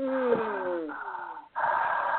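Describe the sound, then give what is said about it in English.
A voice imitates a woman breathing in someone's left ear with a few breathy, voiced exhalations. Each is steady and sustained, the first sliding downward in pitch, with a brief pause before the last one. “I hear a woman breathing in my left ear, just like,”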